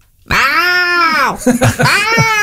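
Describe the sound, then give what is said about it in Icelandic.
A person imitates a cat's meow with a voice, giving a drawn-out, tonal mewing cry whose pitch bends up and down, followed by a few shorter wavering meow sounds, heard alone. “Sú minnsta sem heitir Snúlla og sem mjálmar svona”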